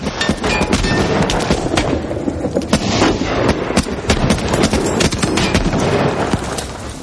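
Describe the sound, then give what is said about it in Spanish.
A WWII battle scene from Saving Private Ryan, with a tank cannon shot and the explosion that turns a German armored vehicle into a fireball. Dense, loud, continuous booms and gunfire-like cracks run throughout without pause. “El segundo disparo lo convierte en una bola de fuego.”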